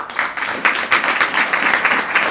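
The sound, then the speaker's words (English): Audience applause at a Republican political gathering in San Francisco: dense, steady clapping from many hands fills the whole stretch at an even, fairly loud level, with no voices over it. “That was Daniel Ellsberg, with applause from the Republican Roundtable in San Francisco on December 18, 2007”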